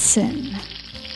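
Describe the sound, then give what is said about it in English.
Steak sizzling in a hot pan gives a dense, continuous frying hiss. A single spoken word sits briefly over it near the start, and the sizzle holds steady throughout. “You know that sound? That's the sound of steak.”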